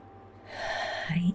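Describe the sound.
A slow, audible inhale through the nose and mouth while drawing in the first syllable of the So Ham mantra in a guided meditation, a soft breathy rush that swells for about a second before a low voiced hum begins.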